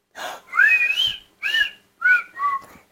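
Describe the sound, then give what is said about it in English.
A person whistles a few short melodic phrases with clear, bright tones that glide in pitch, each separated by brief pauses. “Let's see the whistle.”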